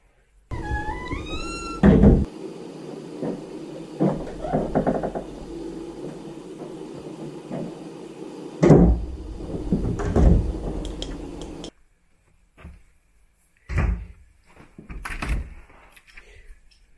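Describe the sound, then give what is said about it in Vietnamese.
A cabinet door in the Sallie House is opened. A wavering creak is followed by a few hollow thuds and knocks, with stretches of faint rustling and near-silence between them. “Mở cái tủ nghe cái tiếng.”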